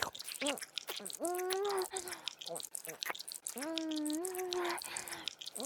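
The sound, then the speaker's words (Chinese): Wet licking and slurping on feet, with clicky mouth noises broken up by drawn-out humming vocal tones, moderately faint and uneven in rhythm. “这么诱人的臭脚，我一定要舔个够。太好吃了，臭脚。”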